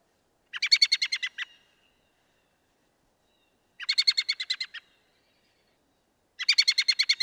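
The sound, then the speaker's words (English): A bird's alarm call, given by both males and females, comes in three bursts of rapid, high chattering notes. Each burst lasts about a second, with silent gaps between them, and the last runs to the end. “So the calls are like an alert, danger, danger, and both the males and the females make that sound. Here's what it sounds like.”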